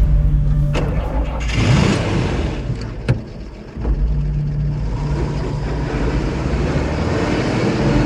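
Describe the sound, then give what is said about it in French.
Engine of an armored security van cranking and starting after a brief quiet gap, then settling into a steady, loud, low rumble of the running engine. “le camion blindé de la Lomis démarre”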